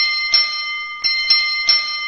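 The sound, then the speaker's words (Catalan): A school bell rings out with four bright metallic strikes, each renewing a sustained, high shimmering tone that hangs between hits. “Després d'uns minuts, va sonar la campana del col·legi.”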